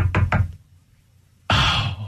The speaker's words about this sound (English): I'll knock.